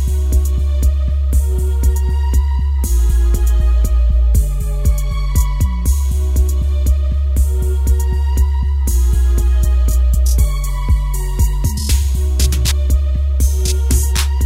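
Electronic dance track reworking Mozart's Requiem, loud and dense, with a pounding regular bass beat under layered synthetic tones, and a few brief breaks where the beat drops out.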